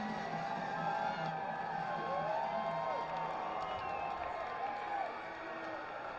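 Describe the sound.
A baseball crowd at a Lugnuts game cheers with a steady, fairly faint roar of voices and whoops, holding an even level throughout without a clear peak.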